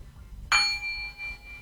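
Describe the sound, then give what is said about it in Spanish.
A gong struck once gives a bright metallic hit that rings on as a steady, fading tone for about a second, over a low background rumble. “¿Sabes tocar el gong? ¿Este es un chino o es un japonés?”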